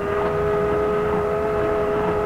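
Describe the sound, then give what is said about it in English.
A trader's boat getting underway on a river gives off a steady, droning engine hum with sustained tonal lines. It holds level and continuous throughout, with no voices. “Look, boat's leaving now.”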